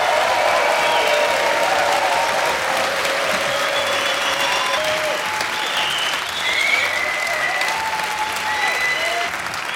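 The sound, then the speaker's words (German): Sustained applause from about 700 guests filling a packed hall at the Estrel Congress Center. The clapping stays loud and dense throughout and eases slightly at the very end. “Vor uns ein brechend voller Saal mit 700 Gästen, die auch hörbar für Stimmung sorgen dürfen.”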